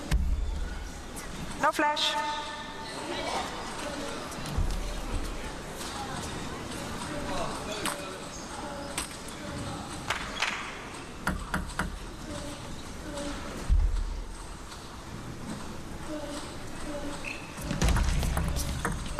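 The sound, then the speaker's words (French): Irregular ball thuds come from volleyball players warming up in a warm-up area adjoining the main hall, faint and scattered under steady commentary voices, with some arena crowd noise. “C'est étrange, hein, on entend les gens qui s'échauffent.”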